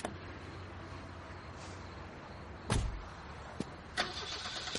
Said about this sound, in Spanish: llega en coche a su casa. Aparca el coche al lado del Challenger.